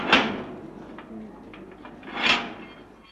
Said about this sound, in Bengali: গারদের দরজা বন্ধ হলো।